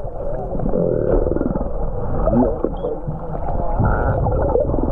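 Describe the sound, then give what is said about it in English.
A 10-metre humpback whale blows as it is freed from a shark net a few hundred metres offshore in Queensland, making a loud, steady, rushing low rumble that lasts throughout. “That was the sound of the 10-metre humpback blowing as it was released from its 12-hour ordeal, trapped in a shark net, a few hundred metres offshore from Mermaid Beach in Queensland earlier this week.”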